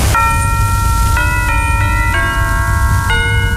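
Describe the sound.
The 1951 intro sound of the first Dutch television broadcast: a loud, chime-like electronic melody of several sustained notes that step up and down in pitch over a steady background hiss.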